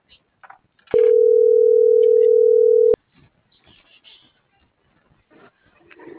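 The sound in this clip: A telephone tone sounds after a call is ended: a single flat, mid-pitched beep held steady for about two seconds, with quiet talk around it.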